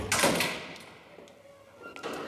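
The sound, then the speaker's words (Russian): A door being locked gives a faint clattering rattle at the start, quieter handling after it, and another click and rattle near the end. “Оля запирает дверь и поднимается с подругой на лифте.”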